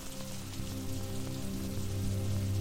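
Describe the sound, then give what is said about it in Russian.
Light, sparse rain taps on a hat brim and on pavement beneath an overcast morning sky, a faint, steady patter with no voices. “хмурым небом и стучащим о полы шляпы и мостовую редким дождем.”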